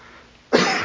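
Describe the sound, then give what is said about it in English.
A single loud, harsh cough during a sermon. It bursts out abruptly after quiet and is cut off before it ends. “I was hoping to get through this sermon without a coughing fit”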